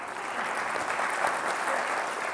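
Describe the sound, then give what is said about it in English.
Audience applause during a church sermon: a dense, even clatter of many hands clapping, steady and fairly loud for about two seconds. “Can we have a round of applause for Diana?”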